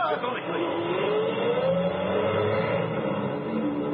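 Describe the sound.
A truck engine drives away, its steady motor drone revving upward and holding at a moderate level for a few seconds.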